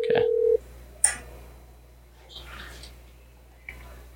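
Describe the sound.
A telephone is dialled to call someone: a steady low tone sounds for about half a second, followed by a few soft clicks and faint rustles, with no talking.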